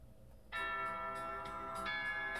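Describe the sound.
A school bell chimes at the end of a class. The bright, sustained ringing tone starts abruptly and is struck again partway through, ringing on steadily.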